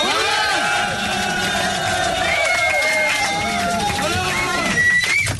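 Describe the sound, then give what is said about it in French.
Audience cheering and whooping for a guest performer during a live radio evening: a loud, continuous crowd roar with many overlapping voices calling out, holding steady throughout. “Peut-être mettre debout pour les saluer, peut-être pour la standing ovation quand même pour Alain de Brest”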